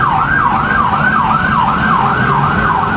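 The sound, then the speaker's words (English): Emergency vehicle sirens wailing as they race to a police incident: a loud, continuous siren sweeps quickly up and down in pitch several times over a low road rumble, with no voices. “Emergency vehicles racing to the scene a couple of hours ago.”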